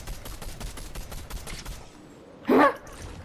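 Video game gunfire: rapid automatic shots in a fast, even rhythm for about two seconds, then a short pause and one louder, heavier blast.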